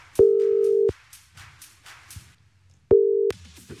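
Telephone ringback while a radio station calls a game winner: two long, steady, mid-pitched tones separated by a pause of about two seconds, with faint background sound between them.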